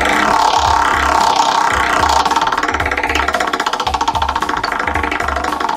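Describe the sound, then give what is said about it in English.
A prize wheel spins during an impressions game. A rapid, continuous clicking rattle runs over repeated low thumps at a steady rhythm, fairly loud, with no voices. “Spin the wheel”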